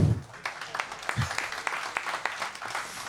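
Scattered applause from the audience at a live show with basketball guests, a handful of separate claps ringing out sparsely and fairly quietly.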